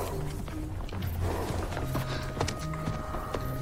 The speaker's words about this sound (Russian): Заметив лошадей, она подходит ближе и гладит одну из них.